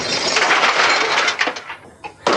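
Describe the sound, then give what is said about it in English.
A television screen is smashed for a sound-effects recording in a junkyard. A loud, glassy crash with crackling debris trails into a few sharp smaller impacts and ends with one more abrupt burst. “TV smash. Take one. One, two, three, four.”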